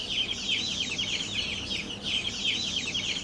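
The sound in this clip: Newly hatched rail chicks give high, thin cheeping. The rapid peeps run on continuously at an even, fairly soft level, with no voices over them.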